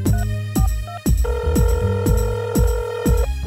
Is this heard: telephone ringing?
yes

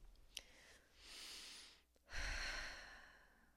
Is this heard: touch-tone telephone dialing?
no

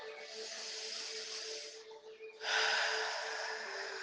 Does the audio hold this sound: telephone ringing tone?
no

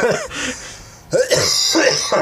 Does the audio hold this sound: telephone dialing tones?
no

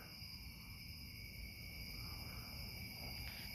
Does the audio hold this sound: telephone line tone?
no

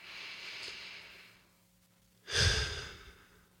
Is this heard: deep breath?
yes

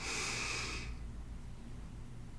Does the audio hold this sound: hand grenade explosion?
no

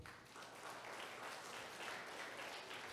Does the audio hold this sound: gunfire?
no

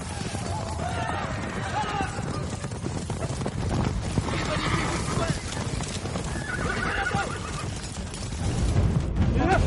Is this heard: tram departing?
no

